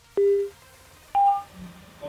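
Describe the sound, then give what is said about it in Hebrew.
Telephone dialing tones while placing a call: two short steady electronic beeps, the first lower in pitch and the second higher, with a brief gap between them and no voices. “בואו נראה שוב, ננסה שוב לחייג.”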